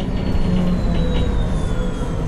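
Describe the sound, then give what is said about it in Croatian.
A train arriving at its last station, Ilijaš, with a steady, loud rolling rumble of wheels and carriage throughout and a faint, thin high whine that slowly drifts lower in pitch. “Evo mislim da stižem. To je to, Ilijaš, jel, zadnja stanica.”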